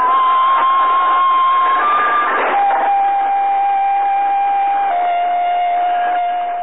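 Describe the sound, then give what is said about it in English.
A satellite transmitter sends telemetry signals: a steady, whistling electronic tone over constant static hiss that shifts pitch a few times, stepping up briefly and then settling lower, running continuously and loud throughout. “What you are hearing is a satellite transmitter broadcasting telemetric signals.”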